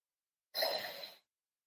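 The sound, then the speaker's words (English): A single deep breath drawn in through the mouth, taken as part of a stress-relief breathing exercise: a short, soft rush of airy noise lasting under a second, heard alone. “So a big deep breath in.”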